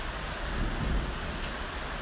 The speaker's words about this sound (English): It's raining here, and thundering, and occasionally lightning